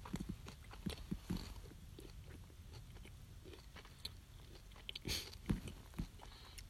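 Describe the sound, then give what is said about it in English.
Chewing food with faint, crunchy bites and mouth noises, many small irregular clicks and crunches close to the mic, with a few louder crunches near the end and no talking. “I'm just over here chewing.”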